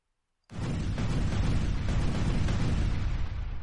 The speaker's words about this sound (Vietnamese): Tiếng nổ vang vọng